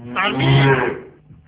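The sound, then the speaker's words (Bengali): A person imitating a cow's moo gives one long, loud, drawn-out voiced call that holds steady for about a second and then fades away. “গরুর আওয়াজ শুনতেছিলাম আপনি হাম্বা হাম্বা করতেছেন”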